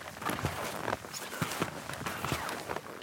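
Footsteps walk through snow on the flat last stretch to the abandoned Gori-Alm, an alpine hut: a steady series of soft, faint crunching steps.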